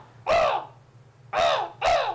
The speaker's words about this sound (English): there's a crow in here. Yeah, I bring my crow with me sometimes.